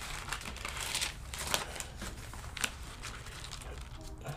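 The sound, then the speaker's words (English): A book page is accidentally torn while turning to a passage during a sermon: faint paper crinkling and rustling with a few short, sharp rips, no talk. “Did I tear my book? I did.”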